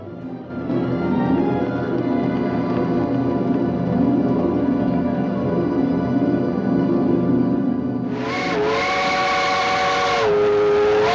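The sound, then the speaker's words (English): A steam train arrives at a small desert station, its steady chugging rumble pulsing rhythmically throughout, then a loud, shrill steam whistle blasts twice near the end. “A steam train arrives at a small desert station called Spearville.”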